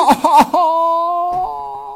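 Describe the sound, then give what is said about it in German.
A voice imitates crying at a funeral, with a short vocal burst followed by a long, sustained, wavering wail that fades slightly at the end. “Und dann da so auf die Beerdigung und dann so weinen wie der Anchorman.”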